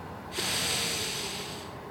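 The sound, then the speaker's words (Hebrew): An inhaler puff and a deep inhalation beside a wall among gas cylinders: a sudden hiss of air starts and holds as a steady, breathy rush for over a second, then fades slightly, fairly faint, with no voices. “פתחתי את הרוחסן ולקחתי שאיפה עמוקה.”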